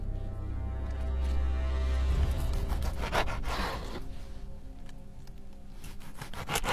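Rasping, sawing scrapes of a sharp knife working into the flesh of a corpse. A low rumble fills the first couple of seconds, then rough grinding strokes follow in a loose, uneven rhythm.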